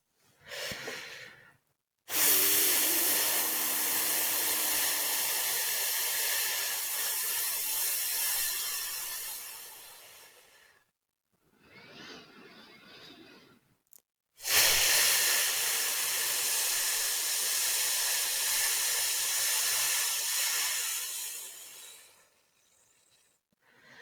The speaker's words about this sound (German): Und jetzt atme tief ein und atme fast ohne Ton aus dem Laut F aus.